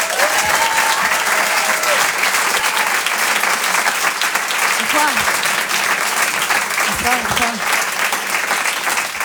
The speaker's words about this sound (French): Je vous demande une ovation s'il vous plaît pour Elisabeth Buffet.